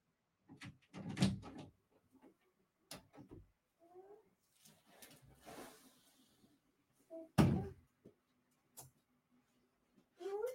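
A door opens as a small child gets into a locked home studio. There are a few dull thumps and clicks, faint scraping, and brief soft vocal sounds scattered between them.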